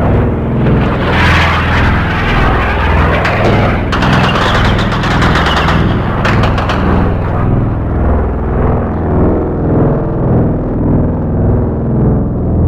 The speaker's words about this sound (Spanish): Contestan nuestras baterías antiaéreas y se ve el refulgir de sus disparos en el aire. Un ruido que ahora se hace más intenso.